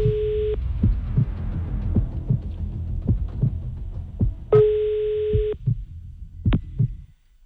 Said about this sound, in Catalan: Estem marcant, eh?